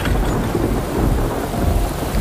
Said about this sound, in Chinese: 忽然又是大风又是下雨